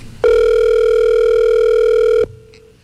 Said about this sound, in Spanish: Está timbrando.